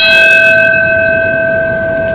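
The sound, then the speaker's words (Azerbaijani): A large bell tolls during a memorial moment of silence for the September 11 anniversary in America, at 8:46 in the morning: one loud stroke whose steady, humming ring fades slowly, with no voices. “Zəng səsi yerli vaxtda səhər saat 8:46-da 11 sentyabr hadisələrinin baş verdiyi vaxtda eşidilib.”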